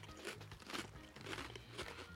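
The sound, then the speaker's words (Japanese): Crisp crunching of thick teriyaki burger flavored potato snack sticks as they are bitten and chewed, a few sharp bursts of crackle in a steady chewing rhythm, with no voice over them. “じゃがりこ風の 太めじゃがりこって感じですね、うん、 はい、いただきます。 どうですかね、おじさんが照り焼きバーガー味のポテト食ってます。”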